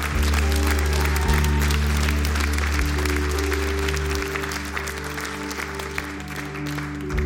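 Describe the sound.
A church audience applauds the pastor after a prayer, with steady, full clapping throughout over a sustained low tone.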